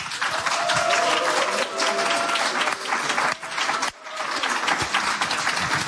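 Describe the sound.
Studio audience applauding to welcome a guest onto a talk show, a dense, steady wash of many hands clapping that stays loud throughout, with one brief dip before the clapping swells again.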